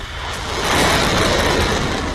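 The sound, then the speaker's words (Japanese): Roaring blast of an Iranian surface-to-air missile launched at a US military reconnaissance drone: a loud, dense, continuous rush of noise that swells slightly and holds steady, with no voices. “地対空ミサイルが発射された後、無人偵察機とみられる物体が炎に包まれる様子が映っています。”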